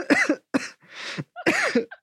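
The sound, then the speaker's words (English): A few rough, raspy coughs from a person just recovered from COVID, arriving in short, irregular bursts with a breathy throat-clearing sound between them; no talking. “I'm coughing because I just recovered from COVID.”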